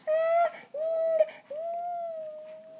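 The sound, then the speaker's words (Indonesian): A young child crying in three drawn-out, high, steady wails, the last one longest, with no talk over them. “Ini lagi nangis ya. Tidak usah takut, sayang.”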